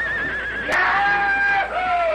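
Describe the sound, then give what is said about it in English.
A stallion whinnies as it bucks under a rider while a crowd watches, giving one drawn-out, fairly loud cry whose high tone drops lower partway through. “Then the two cowhands leaped aside, and the stallion went into action.”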